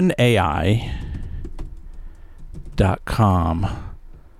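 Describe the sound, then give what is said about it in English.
Typing on a computer keyboard, with a few light, scattered key clicks under a person talking at close range. “So ChatGPT, I'm typing here. I don't know if you can hear me. I'm making mistakes, though.”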